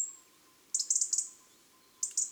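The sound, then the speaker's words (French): A European robin gives small autumn calls in October: a quick burst of several thin, high ticking notes, a pause, then two more, all fairly faint and alone. “Le rouge-gorge et ses petits cris d'octobre.”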